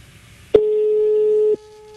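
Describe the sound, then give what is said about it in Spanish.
Telephone call tone as a number is dialled again: a single steady, low-pitched tone that starts abruptly, holds for about a second and then cuts off. “Espérate, vamos a llamar otra vez.”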